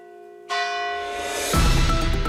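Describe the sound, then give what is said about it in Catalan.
A church bell in an old bell tower tolls the hour at eight in the evening: two loud, full strikes, each leaving a long, shimmering ring of overtones. “Serà, com sempre, quan des del vell campanar s'anuncie amb estos tocs, que són les 8 de la vesprada.”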